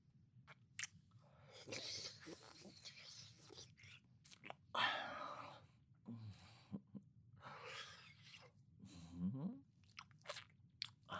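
Soft, wet chewing and biting mouth sounds of someone pretending to eat decorations. They come in irregular bursts with a few sharper crunchy clicks and breathy noises in between.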